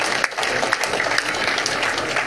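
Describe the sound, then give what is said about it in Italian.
Audience applause at a civic event celebrating classic yacht regattas and sailing: steady, fairly loud clapping with a few sharper individual claps standing out across the short stretch. “vi ispiro a fare un applauso”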